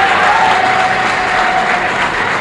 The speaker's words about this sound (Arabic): وكما تسمعون الجمهور فهو يطلبها بشدة.